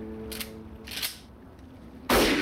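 A single loud gunshot cracks out near the end as a man is shot, after two fainter, muffled bursts.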